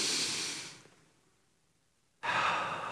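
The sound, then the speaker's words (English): An audience at a sermon takes a deep breath together: a loud, airy inhale, a quiet pause while the breath is held, then a strong, rushing exhale. “I want us all just to take a deep breath, hold it, and then release it.”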